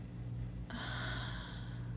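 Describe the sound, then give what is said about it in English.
A deep, slow breath drawn in and let out, heard as a soft airy rush that starts about a third of the way in and lasts roughly a second, over a steady low hum. “Just take a deep breath in and out.”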